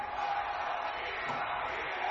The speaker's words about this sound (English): Crowd is split. Going for Sheeta and DMD.